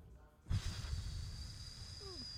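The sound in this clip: A loud breath blown close into a microphone: a sudden, forceful onset that settles into a sustained, hissing rush of air, heard alone without talk.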